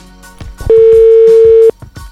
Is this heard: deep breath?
no